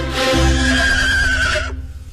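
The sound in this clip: An eight-year-old guard stallion gives one loud, drawn-out whinny that holds a high, wavering tone for about a second and a half before cutting off. A low, steady hum runs underneath, and no voices are heard.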